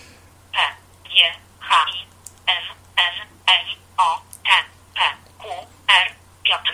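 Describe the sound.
Keypad beeps from a joystick-equipped mobile phone as text is typed letter by letter without predictive input: many short, evenly spaced bright tones in a brisk, regular rhythm.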